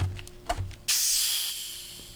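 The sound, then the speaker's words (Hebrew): A sharp hiss of escaping gas as a 1.5-litre bottle of lemon-lime zero-sugar carbonated soda is opened. A few soft handling knocks come first, then the hiss bursts in loudly and slowly fades over the following second. “נתחיל את אחר הצהריים שלנו עם זירו. אני פותח בקבוק ליטר וחצי.”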